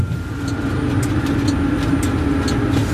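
Steady in-car driving noise at 40–50 km/h, a continuous low rumble with a constant hum tone and faint, regular light ticks throughout.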